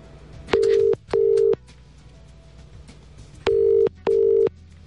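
Telephone ringing tone on the line as a radio studio places a call to a contest winner: four steady, even, mid-pitched beeps in two pairs, separated by a gap of faint line noise.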